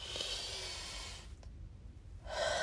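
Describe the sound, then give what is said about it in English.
A deep breath drawn in as a long, breathy rush of air, easing into a brief quieter lull before the airy rush returns more strongly at the end. “I just take a really deep, deep, deep breath like this.”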